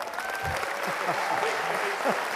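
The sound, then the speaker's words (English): Audience applause as a guest speaker is welcomed onto the stage at a live event: dense, steady clapping that holds for the whole stretch, with a few voices calling out within the crowd. “The one, the only, the wise guy, Kawasaki. Please put your hands together.”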